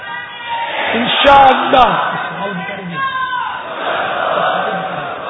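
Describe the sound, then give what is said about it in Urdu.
Loud massed voices of an Islamic religious gathering chanting slogans together, a sustained bellowing swell that peaks in the middle and then carries on at steady strength. “تھوڑا اب آپ اندر میں سے نعرے لگاؤ دو چار تاکہ سستی اڑے۔”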